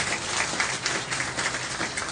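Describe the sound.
Applause from a church audience during a sermon, a steady, dense wash of clapping that holds at an even level for the whole two seconds, with no voices over it.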